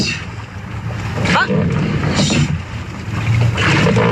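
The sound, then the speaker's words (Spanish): Women rowers training in boats on the water in Donostia: a steady rush of wind and water with a few recurring surges, and a brief voice. “Entrenamiento de las remeras de Arraún Lagunac en Donostia.”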